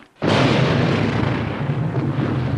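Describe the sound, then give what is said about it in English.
A sudden loud blast bursts into a dense, sustained roar of explosions on an American Civil War battlefield. The deep rumbling spray of debris stays loud and broad throughout. “Explosions tear into the ground. Dirt and smoke blast upward amid the young soldiers.”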